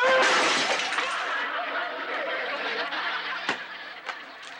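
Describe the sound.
A Swiss flower vase falls and shatters, a loud crash of breaking pieces right at the start that fades into a long, trailing rattle, with a couple of sharp clinks later on.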